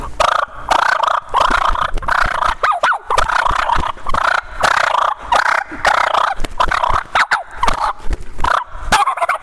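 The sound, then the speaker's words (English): A hunting turkey call imitates fighting birds with raspy, rapid purrs, whines and a half gobble. The choppy rattling sound runs almost without break, rising and falling in short loud bursts. “maybe throw a little half gobble like that in there and stage a fight.”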